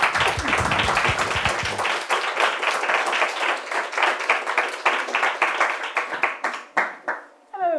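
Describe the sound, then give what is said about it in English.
An audience applauds to welcome guest speakers, with dense, loud clapping at first that thins out into scattered, separate claps toward the end. “We now just need to put our hands together to welcome our two guest speakers.”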